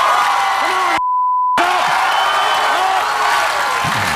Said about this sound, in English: And the crowd goes wild.